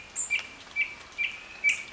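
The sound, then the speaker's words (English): Songbirds, thrushes among them, singing in late summer near a river: a series of short, high, faint chirps repeating at an even rhythm over quiet background. “In a couple of weeks, the sound of the thrushes and other songbirds will dwindle, a diminuendo of late summer as chicks are fledged and territories no longer need defending.”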